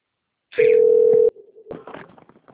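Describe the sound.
A telephone ringing: one sustained electronic ring tone sounds for under a second, followed by a fainter, shorter tone and a spell of soft, irregular clattering noise.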